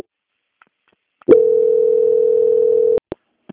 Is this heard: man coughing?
no

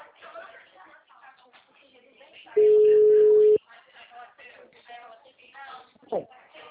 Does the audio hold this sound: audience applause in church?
no

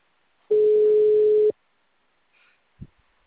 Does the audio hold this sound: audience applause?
no

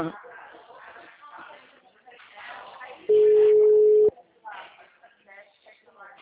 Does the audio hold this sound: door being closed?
no

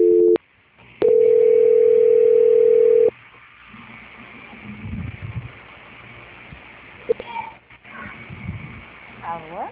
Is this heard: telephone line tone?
yes

